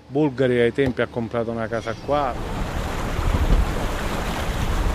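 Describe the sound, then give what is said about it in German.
A ship casts off and sails past the small uninhabited islets off Panarea. A voice speaks briefly at first, then a steady, broad rush of wind and water noise takes over and holds to the end. “Viel Zeit zum Staunen bleibt nicht, denn das Schiff legt ab und fährt an den unbewohnten Inselchen vor Panarea vorbei”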